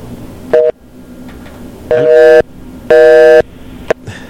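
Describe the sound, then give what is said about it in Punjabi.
Telephone busy signal, with all phone lines engaged, comes as a few loud, buzzing harmonic tone bursts separated by gaps of background noise; the last burst is very brief. “ਸਾਰੀਆਂ ਲਾਈਨਾਂ busy ਨੇ”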